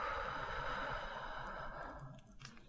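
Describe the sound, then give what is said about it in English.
A deep breath taken during a guided relaxation exercise: a soft, airy rush of breath that holds steady, then thins and fades away, with no voice over it. “Take a deep breath in, and as you exhale, let your body relax even more.”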